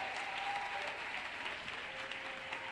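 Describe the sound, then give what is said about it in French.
A church audience applauds and cheers during a French-language worship service, with steady, brisk clapping that stays at an even level for about three seconds. “Est-ce que quelqu'un peut acclamer pour Jésus ce matin? Alléluia.”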